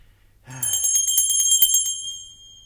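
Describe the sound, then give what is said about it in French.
A small hand bell rings in a quick, continuous jingle of bright, high metallic tones for about a second and a half, then fades out, heard alone. “ils n'entendent point et ma sonnette ne fait pas assez de bruit.”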